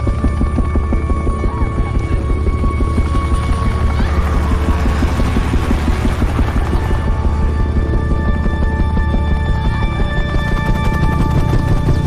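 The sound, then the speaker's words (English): A rescue helicopter flies in with a loud, steady, rhythmic rotor thump and engine drone. The sound holds constant throughout. “A rescue helicopter makes its way in.”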